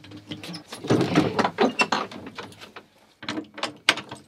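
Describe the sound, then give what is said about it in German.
A padlock being laboriously unlocked and a door opening: rattling metallic clicks and clunks of the lock and door mechanism, a brief pause, then a few more sharp knocks. “Der nach eigenen Angaben letzte Leprechaun-Flüsterer Irlands schließt umständlich das Vorhängeschloss auf.”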